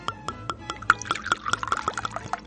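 Liquid poured into two small glasses for a round of toasts in a radio studio, a quick gurgling pour with a fairly regular rhythm of small glugs, moderately quiet throughout.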